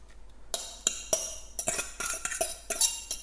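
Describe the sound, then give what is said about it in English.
A utensil clinks against a bowl while banana bread batter with mashed bananas is slowly mixed, giving many sharp, irregular taps and scrapes with quiet pauses between them and no voices. “And again, mixing that slowly.”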